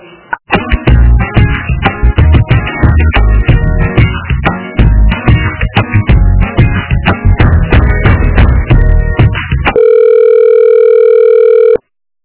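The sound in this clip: Telephone line tones while a call to a municipal administration office is transferred to another extension: about ten seconds of loud, rapidly changing tones, then a steady sustained tone that cuts off abruptly.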